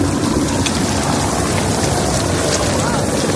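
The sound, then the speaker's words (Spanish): A ship arriving at the port of Toulon, France, under escort by French forces, heard as a steady, loud, unbroken roar of engine and wind noise. “Y ese era el momento en el que el barco llegaba al puerto de Toulon, en Francia, escoltado por las fuerzas francesas.”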